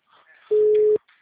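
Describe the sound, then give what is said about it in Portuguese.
Telephone tone after a dropped call: a single steady, mid-pitched electronic beep lasting about half a second, loud and flat, with faint low noise before and after. “A ligação caiu, perdoa eu.”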